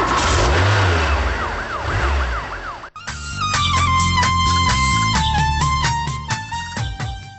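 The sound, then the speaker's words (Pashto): A car engine revs loudly as the vehicle pulls away fast, with a wailing police siren rising and falling over it. After about three seconds, music takes over. “اوس خبرې پرېږدئ، پورته شئ موټر ته. ښه صاحب، زر زر موټر ته حرکت ورکړه.”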